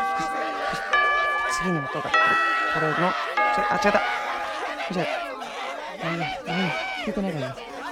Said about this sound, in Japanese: ちょっとチャイムが壊れてるから、チャイム鳴らさないと。